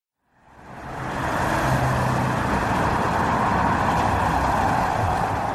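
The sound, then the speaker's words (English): Street traffic at the corner of Wilcox and De Longpre in Hollywood, outside the LAPD Hollywood police station, rises in quickly and then holds as a steady, dense roadway rumble with no voices. “Now we're standing right on the corner of Wilcox and DeLongpre, 1358 North Wilcox, which is the LAPD's Hollywood police station.”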